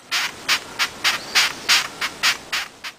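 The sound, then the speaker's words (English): A long-horned beetle stridulates in a steady series of dry, raspy squeaks, about three per second, each a short scratchy burst of fairly even loudness against near silence. “That sound was... A long-horned beetle. A long-horned beetle.”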